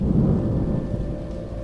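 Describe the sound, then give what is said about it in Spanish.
Rain pouring down over a cemetery, a dense, steady wash of sound with a low, thundery rumble underneath and no voices. “En un momento se soltó la lluvia sobre el camposanto”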